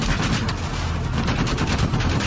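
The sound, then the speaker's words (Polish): Gunfire in a video game, with rapid, overlapping shots forming a loud, continuous barrage of bursts with no pause. “Oni mnie to zaraz zaszczelą.”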